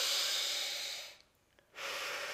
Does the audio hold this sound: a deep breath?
yes